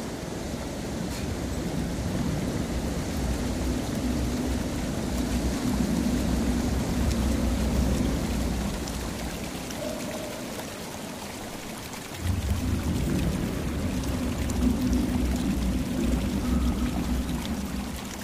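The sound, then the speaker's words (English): River water flowing steadily in a dense, continuous rushing roar that briefly drops in loudness partway through, then returns at full strength. “The river.”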